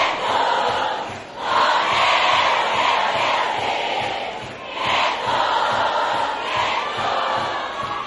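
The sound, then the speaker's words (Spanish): A live crowd at a cumbia concert, during a platinum record presentation, roars with loud, continuous cheering, shouting and applause, the dense wash of noise swelling a few times without a break. “Yo quiero escuchar bien fuerte el aplauso.”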